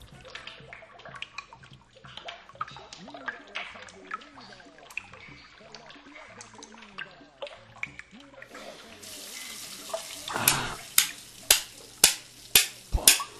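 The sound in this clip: Water runs in a bathroom while a new pipe is installed: faint, scattered sounds at first, then a sudden rushing hiss near the end, followed by a series of sharp knocks.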